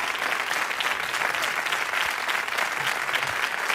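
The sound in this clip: Audience applause for a 1990s band: dense, steady clapping from many hands that stays loud and even for the whole stretch, with no voices standing out.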